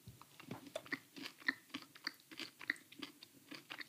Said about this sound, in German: So, ich habe so ewig kein Rocher mehr gegessen. Ist da bei, ist beim normalen Rocher in der Mitte eine Nuss?